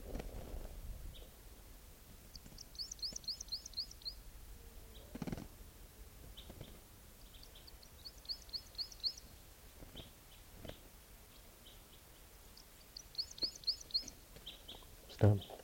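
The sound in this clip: A bird calls in three separate bursts of quick, high chirping trills, spaced several seconds apart, over low background noise with a few scattered soft thumps.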